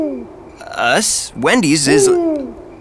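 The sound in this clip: A voice imitating owl hoots: a few wavering, sung hoo calls with rising and falling pitch, one with a sharp breathy hiss, loud and alone.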